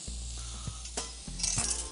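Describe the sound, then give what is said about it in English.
Diced ingredients, including something from Nueske's, are stirred in a frying pan. A quiet, continuous sizzle is broken by a few soft utensil scrapes and clinks against the pan. “Give that a nice little mix.”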